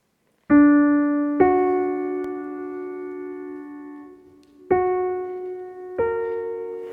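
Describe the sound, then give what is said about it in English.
Pure major thirds stepping from C to E and E to G sharp, played as clean, sustained tones that slowly decay. Four note onsets fall in two pairs separated by a long ringing gap. “Let's imagine a series of pure thirds. C to E and E to G sharp, which sound like this.”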